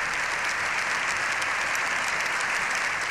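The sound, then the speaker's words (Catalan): Long, sustained applause for Pope Leo XIV in the Congress of Deputies, following his speech; dense, even clapping that holds steady at a strong level, with no voices standing out. “Lleó XIV ha rebut una ovació de 7 minuts al final de la seva intervenció”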